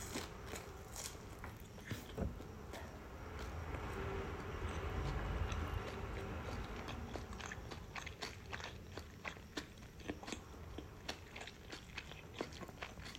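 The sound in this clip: Quiet chewing while eating rice with tuna and green onion, many small crunchy clicks and moist smacks at an uneven rhythm, faint and with no talk over it.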